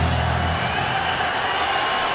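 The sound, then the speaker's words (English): Brewers fans cheer from the crowd at Coors Field during a tense 2-2 count late in a ten-inning baseball game, a steady, loud wash of crowd noise without distinct peaks. “And the noise you hear, Brewers fans littered throughout Coors Field.”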